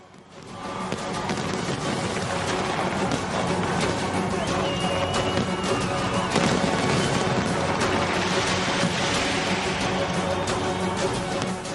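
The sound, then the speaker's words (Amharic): Fireworks at a New Year celebration in Sydney, Australia, a steady, dense wash of crackling bangs and booms that runs loud and unbroken through the whole stretch. “ኣብ ሲድኒ ኣውስትራልያ ልዕሊ 1.5 ሚልዮን ሰባት ኣብ ሃሩር ዝዓብለሎ ወቅቲ ንኣስደማሚ ምርኢትን ርችትን ይከታተሉ ኣምስዮም።”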